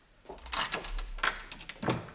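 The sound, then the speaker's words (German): Faint clicks and rattles of a door being opened with the security chain on, a few short knocks and metallic scrapes in quick succession. “So, mach auf, aber leg die Kette wieder vor.”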